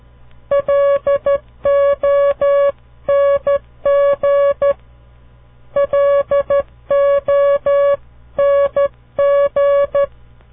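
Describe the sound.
Morse code spells out the four-letter word long in clean, steady beeps at a single pitch. Short and long tones form four distinct letter groups separated by brief silences, with no voices.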